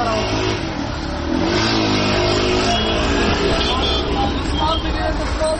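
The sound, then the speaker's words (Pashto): City car traffic in an Afghan town during Eid gives a loud, constant roar of engines, with one car audibly accelerating and a murmur of voices beneath the steady din. “په ښارونو کې د موټرو د تک راتک شور”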